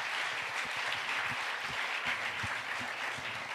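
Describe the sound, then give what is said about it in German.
An audience applauds at a prize-giving with steady, dense clapping that stays at an even level from start to finish. No one speaks over it. “Ein Applaus.”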